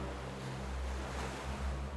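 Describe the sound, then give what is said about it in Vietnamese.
Churning, surging water shaken around a small boat, a steady rough wash with a deep low rumble that swells and eases slightly throughout, with no distinct separate splashes. “Vừa nói, con quỷ vừa làm cho mặt nước rung chuyển mạnh hơn, cái vỏ càng lắc lư mạnh hơn.”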